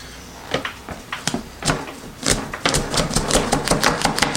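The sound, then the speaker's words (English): A Chefin Mini Burger Press smashes ground beef into a patty, producing a series of sharp knocks and clicks that start sparse and grow denser and louder toward the end. “Okay, smash that down. Didn't really cut through the beef all that well.”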